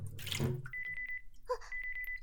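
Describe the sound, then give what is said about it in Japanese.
Hot water poured out of a cup: a brief splashing gush at the start, then a run of many small, bright drips that ring out one after another. “先にカップのお湯を捨てて、”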